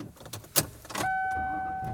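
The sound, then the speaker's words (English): An older car heard from inside while driving, with low road rumble and a few brief clunks and rattles, then a steady tonal whine holding from midway to the end. “And I am driving home. I am back in my dad's old preacher car.”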